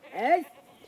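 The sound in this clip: A single short goat bleat comes from goats grazing on an island. It is a wavering, nasal cry that swells and then fades, fairly faint over quiet background noise.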